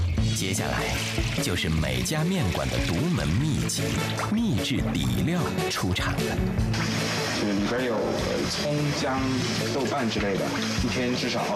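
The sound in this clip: Water rinsing cut pieces of wild eel that were first rubbed with salt and cooking wine for eel noodles, a continuous splashing and pouring under steady talking.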